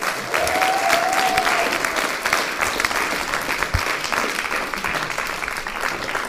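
An audience at a poetry slam applauds and cheers a slam poet called to the stage, a dense, steady roar of clapping that stays loud throughout, with a whistle early on.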